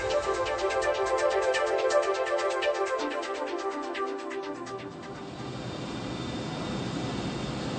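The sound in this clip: An airliner's engines run before takeoff, giving a steady tonal whine with layered harmonics. Partway through, the whine shifts into a broader, rushing rumble that continues to the end.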